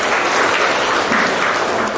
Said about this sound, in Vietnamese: hôm nay có một người anh em nữa đến ngồi với chúng ta, và chúng ta cho chạm vào tay chào mừng người anh em đấy.